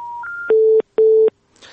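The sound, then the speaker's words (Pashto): Telephone tones as a call cuts off: two brief stepped tones, then two steady, equal beeps separated by a short pause, followed by faint hiss. “بله لکه چې تلیفون کرخه قطع سوله.”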